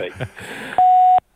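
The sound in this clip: A voicemail beep sounds on a phone call: one steady, mid-pitched electronic tone lasting under half a second, just after a short stretch of voice.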